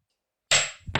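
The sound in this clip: A pog game's eight-ball slammer is slammed down with a sharp, hard smack, followed by a second, lighter knock.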